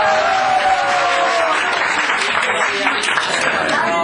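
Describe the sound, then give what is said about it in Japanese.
Concert audience applauding a performer at a Candies show: a thick, continuous wash of clapping that holds at a steady, loud level throughout. “大森君にもう一度拍手をいただきます。”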